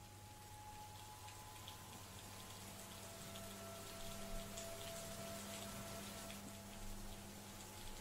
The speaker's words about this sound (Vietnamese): Đã qua giờ ăn tối, ở bên ngoài, trời bắt đầu trở nên mưa nặng hạt.